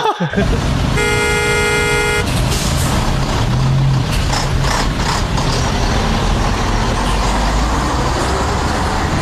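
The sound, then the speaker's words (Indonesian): A car horn gives one sustained blast near the start of a traffic jam, over a loud, continuous roar of engines and road noise that fills the whole stretch. “macet banget nih.”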